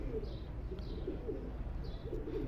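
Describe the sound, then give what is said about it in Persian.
Pet pigeons coo in a low, steady murmur of soft, throaty calls that overlap with little pause, with a few faint higher chirps on top. “خب این از کبوترام”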